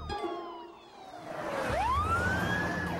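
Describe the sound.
A fire engine's siren wails as it arrives along with a sheriff's car and a truck. Fairly faint at first, the tone sweeps upward, then holds a high, steady pitch.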